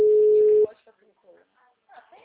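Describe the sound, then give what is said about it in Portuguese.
A single steady, buzzy ringback tone of an outgoing telephone call sounds for well under a second, then cuts off and quiet voices follow. “Não, tô ligando, tô chamando.”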